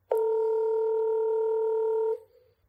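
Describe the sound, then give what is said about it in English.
Phone call being dialed: a single loud, steady electronic call tone holds for about two seconds, then cuts off and fades into quiet. “I'll give Eric a call.”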